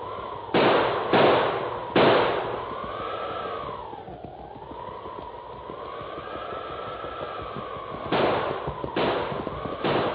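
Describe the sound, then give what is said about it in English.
Gunshots from a heavy six-gun revolver, fired by a man lost in a storm: six sharp bangs in two groups of three, with a long gap between the groups, over a steady wavering howl. “Desperately, he pulled the heavy six-gun from under his mackinaw and began firing. Firing and reloading with numb fingers.”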